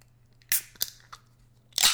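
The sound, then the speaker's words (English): A can of sour pickle beer from Fort Worth, Texas, is cracked open with four short, crisp crackling snaps, sharp and fairly loud, with quiet gaps between them and no talk. “The Best Made Sour Pickle Beer, a product of Fort Worth, Texas. And I haven't opened it, and I haven't tried it. So I'm going to crack it open right now.”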